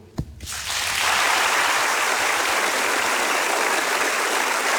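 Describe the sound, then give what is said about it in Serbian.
Audience applause fills an event celebrating a 60-year career, offered in memory of a late loved one. After a brief sound at the start, dense, even clapping rises within half a second and holds steady to the end. “I neka je i ovaj aplauz posvećen njegovi na njegovu uspomenu.”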